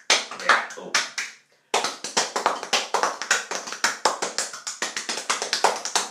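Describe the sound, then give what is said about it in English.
Stomach percussion: hands tap out a quick rhythm on a bare belly. Many sharp, hollow slaps come in a steady beat, with one short pause near the start. “Welcome to another version, another episode of Stomach Percussion.”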